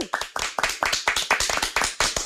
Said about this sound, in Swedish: Ska vi ta en applåd?